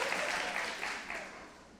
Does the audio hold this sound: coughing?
no